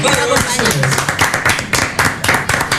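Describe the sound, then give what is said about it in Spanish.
Applause in a radio studio: brisk, irregular hand clapping with many sharp claps, fairly loud and continuous throughout. “Y un aplauso a Radio Vacaciones.”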